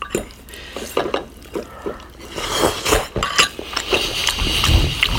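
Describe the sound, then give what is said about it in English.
Spoon clinking and scraping against a soft-boiled egg and dish, with soft wet, liquid sounds between irregular light taps. “And here I am about to eat the egg. Tender, soft, yellow in the middle.”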